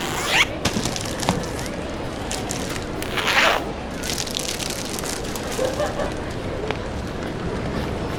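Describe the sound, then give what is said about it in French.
Steady rain makes a dense, continuous hiss and patter that stays fairly loud throughout. A few brief, brighter splashes and rustles rise above it now and then. “Ah, j'adore ce temps. La pluie nous révèle beaucoup sur le monde qui nous entoure.”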